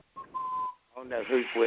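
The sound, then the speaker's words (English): Someone whistles in the background, a brief, thin, steady high tone that is held for about half a second before a person starts talking. “We got some background noise. Yeah, who's whistling there?”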